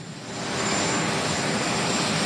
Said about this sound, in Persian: تصاویر زنده رو میبینید از مارین وان هلیکوپتر رئیس جمهور که او رو به پایگاه مشترک اندروز آورده، جایی که او تا دقایق دیگر راهی لس آنجلس خواهد شد.